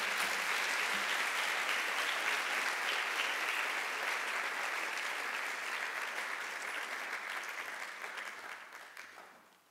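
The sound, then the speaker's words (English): Audience applause greets speakers coming up for a panel event: a dense, steady clatter of many hands that holds strong for most of its length, then fades away over the last couple of seconds, with no talking over it. “So please put your hands together as our speakers come up.”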